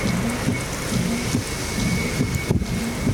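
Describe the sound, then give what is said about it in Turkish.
Heavy rain and a thunderstorm during a US storm that brought flooding: a loud, steady downpour hisses throughout while low thunder rumbles and rolls beneath it. “ABD'de ise fırtına ve yoğun yağışla sel felaketi hayatı durma noktasına getirdi.”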